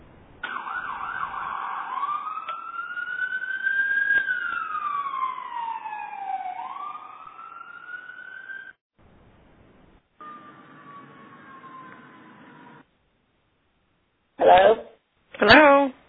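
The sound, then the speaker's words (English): A siren wails on a phone call, its pitch rising and falling in long sweeps for several seconds before dropping out, then a quieter steady tone and a few brief louder bursts follow. “Somebody had a siren that I think cut me off”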